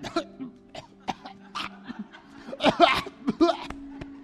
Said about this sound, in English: excuse me. I'm sorry. I was choking on something.